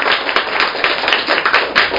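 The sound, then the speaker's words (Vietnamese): Clapping and applause from a group. Many sharp claps run together in an uneven but steady patter that lasts the whole time. “Hoan hô vỗ tay.”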